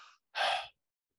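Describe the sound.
A voice imitates panting with two breathy puffs, a short one followed by a longer, louder one, with no other sound around them.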